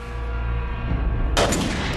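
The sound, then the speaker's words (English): A lab technician fires a gun into a metal tube connected to a tank of water, producing one bright, abrupt burst that cuts through a loud, steady low rumble. “In a lab, a technician fires a gun into a metal tube.”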